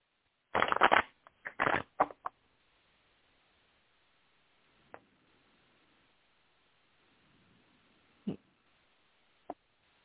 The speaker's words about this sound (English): I'm going to pull another card, see if I can get a little more clarity here.